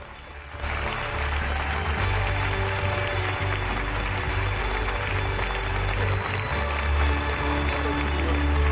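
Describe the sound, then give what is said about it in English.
An audience at a company gathering applauds while standing: thick, continuous clapping swells in after a quieter half-second opening and stays loud and even to the end, with a low steady hum underneath. “The CEO of Unicom takes in the applause and strength of feeling”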